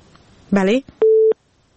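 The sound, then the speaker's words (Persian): After a caller's line drops, a short voice is followed by a single steady, mid-pitched telephone busy tone lasting about a third of a second, then silence. “بله متاسفانه تماس آخوندزاده صاحب قطع شد، تماس بعدی را میگیریم.”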